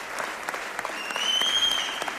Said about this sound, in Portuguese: Uma salva de palmas enorme para eles todos.